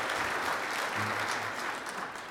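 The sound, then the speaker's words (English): Congregation applauding during a church service, with dense, steady clapping held at an even, moderately quiet level throughout. “Would you mind just honoring their time and their efforts and just give them a clap one more time for the things that they've done today?”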